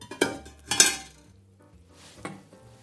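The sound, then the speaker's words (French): A fork mixes butter with seaweed and lemon juice, producing a few soft clinks and scrapes against the dish, with quiet gaps between them. “je vais pouvoir mélanger, toujours à la fourchette, mon beurre avec mes algues et mon jus de citron”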